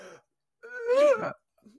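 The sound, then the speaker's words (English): A man gags as he pushes a finger down his throat, a single strained, voiced retch lasting about half a second. Brief faint sounds come just before and after it. “by taking my finger and sticking it down my throat, taking a deep breath. I'm doing it right now.”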